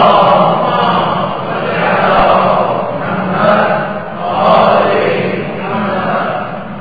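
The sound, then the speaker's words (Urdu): An audience loudly recites durood (salawat) in unison. The massed voices form a dense, steady chant that swells and eases in slow, rhythmic waves. “اپنے امام کے حضور اس دن کی مبارکباد کا پیغام پہنچانے کے لیے ایک بار پھر بآواز بلند درود بھیجیں محمد و آل محمد.”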